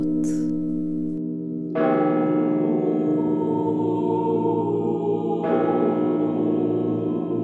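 Church bells ring out at Murom, a few heavy strikes, each followed by a long, rich, humming resonance that sustains and layers between the strokes.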